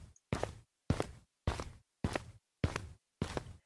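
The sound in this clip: Footsteps walking downhill outdoors, six firm, evenly spaced steps in a regular rhythm, each a short crunchy thud with quiet gaps between them.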